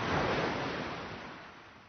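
Sea waves washing onto the shore, a broad rushing surge that is loudest at first and then gradually fades as the water recedes. No voices.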